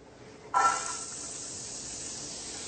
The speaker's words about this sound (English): What we're going to do is start off by sauteing our onions and garlic. Let's check our fire. Okay, so we're going to add our onions into this.